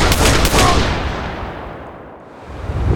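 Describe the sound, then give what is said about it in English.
Energy rifle fire in a stairwell as a soldier shoots into a fallen body: a harsh, continuous roar of gunfire-like noise that thins out midway, then swells loud again at the end. “one of the Nazis fired his energy rifle into the already fallen body of Jim Thundercloud”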